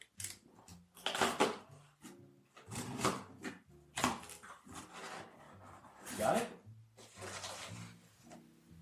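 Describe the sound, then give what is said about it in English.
A cardboard box is opened with help from a dog, giving bursts of scraping, rustling and tearing that come in uneven clusters while a person talks throughout. “So I'm going to open the other box.”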